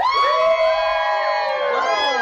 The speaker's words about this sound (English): So if you think we're having a boy, cheer.